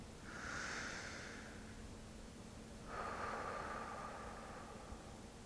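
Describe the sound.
A deep breath taken at the start of a worship service, drawn in and then let out as two soft, airy rushes of breath, quite faint and with no talk.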